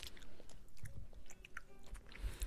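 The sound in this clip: Close-up chewing of food, a quick run of moist bites and crunchy mastication with an uneven rhythm over a couple of seconds, no talking.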